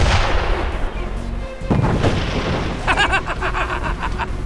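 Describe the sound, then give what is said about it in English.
Gunfire erupts in a combat scene as men advance up a hill near a garage: loud, dense blasts that run almost continuously, with a rapid burst of repeated shots in the second half. “Oh, who the hell's shooting at us?”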